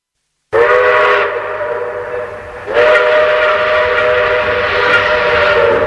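Steam train whistle sounding in two loud, long blasts, the first shorter and the second held steadily to the end, with no voices.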